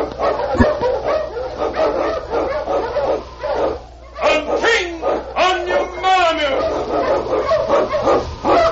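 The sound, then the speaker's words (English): An Eskimo lead sled dog barks in a lively run of many sharp barks and high yips, with some whimpering, loud and close together. “King, swiftest and strongest of Eskimo lead dogs, blazes the trail through storm and snow for Sergeant Preston”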